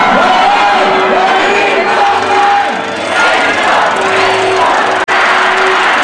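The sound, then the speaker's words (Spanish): A large crowd shouts and cheers in downtown Acapulco, celebrating Mexico's fourth match of the 2026 World Cup with a continuous, loud roar of overlapping voices that barely dips throughout. “el spray en espuma y el griterío hizo sentir la emoción del público asistente al centro de la ciudad para vivir el cuarto partido de la selección mexicana en el Mundial 2026.”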